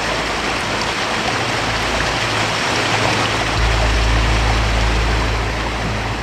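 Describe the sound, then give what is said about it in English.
Toilet flushing with a loud, rushing roar of water that stays steady throughout, the low rumble deepening and swelling partway through. “Oh, someone's flushing gators.”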